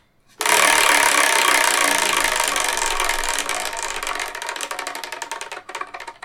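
A game wheel spun hard: a loud burst of rapid ticking that gradually slows and thins over about six seconds.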